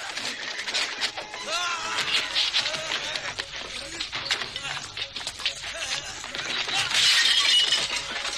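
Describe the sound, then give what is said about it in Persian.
A clay jug is hurled against a kitchen door and shatters in a dense, sustained clatter of breaking and scattering shards. The crashing runs unbroken throughout and swells louder near the end. “کوزه‌ای به در مطبخ پرت میشود و میشکند.”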